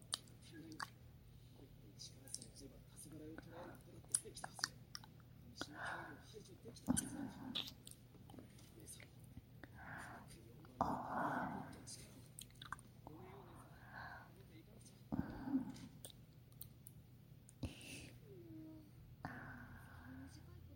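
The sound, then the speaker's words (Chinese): Close, wet mouth sounds of teeth biting a finger: many soft bites, squishes and clicks in an uneven rhythm, with quiet whispered talk between them. “要是像这样咬你的手指，你会有感觉吗？”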